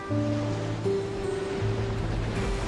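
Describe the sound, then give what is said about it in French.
Sea waves roll in with strong gusts of wind, making a steady, loud, rushing roar that continues without a break. “Tout ce que la mer a à offrir, ce sont ses grosses bourrasques.”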